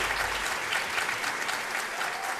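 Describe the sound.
An audience applauds as four musicians are welcomed onto the stage at a French concert, producing a thick, continuous patter of clapping that stays even from start to finish.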